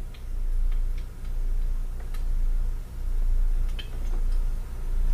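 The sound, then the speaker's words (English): A kitchen timer ticks in a steady, regular rhythm over a low background hum, the faint clicks repeating evenly throughout. “Well, as you can hear, the timer's going off now, so we'll set it for 1 minute.”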